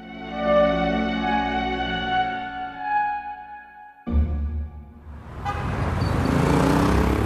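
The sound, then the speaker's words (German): A black Talbot car drives through city traffic up the Champs-Élysées and around the Arc de Triomphe. A steady, droning engine hum gives way abruptly to a louder, broad wash of traffic noise. “Der schwarze Talbot fährt über die Champs-Élysées zum Étoile hinauf. Er umrundet den Arc de Triomphe und biegt Richtung Porte-Maillot ab.”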